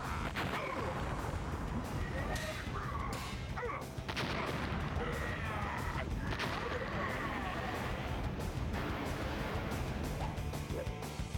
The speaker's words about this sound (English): There goes those rockets again.